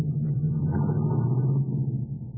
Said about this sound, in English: Now, put it in first. Let the clutch out easy and you'll roll slowly and smooth.